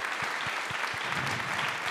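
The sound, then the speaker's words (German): Audience applause at a live quiz evening, a dense, even wash of many hands clapping that holds at a steady loudness for the full two seconds with no break. “Nochmal ein Applaus für Marc.”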